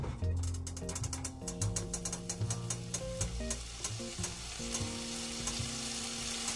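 Faint sizzling of a pan set back on a stove: a steady, crackling hiss runs throughout, with quick clicking ticks and soft tonal sounds mixed in.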